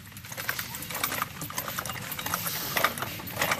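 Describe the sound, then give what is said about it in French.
A hand-cranked medieval rope-making machine twists and tightens four strands per hook for a sixteen-strand rope, producing a steady, dense mechanical rattle and clatter with quick repeated ticks throughout. “Donc on va faire une corde à 16 brins, donc 4 brins par crochet. En premier, on va tourner pour serrer et tendre les brins, que mademoiselle va faire. Donc tu tournes comme tout à l'heure, par là, vers la forêt.”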